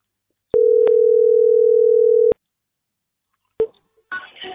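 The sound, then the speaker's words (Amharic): A telephone ringback tone sounds while a call is placed: one steady, mid-pitched tone lasting about two seconds, then a pause, a click and brief rustling. “አረ እየደወልኩ ነው።”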